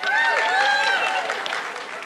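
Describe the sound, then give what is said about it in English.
Audience applause during an audience-participation segment of a live show: a full, sustained wash of clapping that eases slightly toward the end, with faint vocal tones mixed into the crowd. “Let's have a hand for my mother-in-law who made these paddles.”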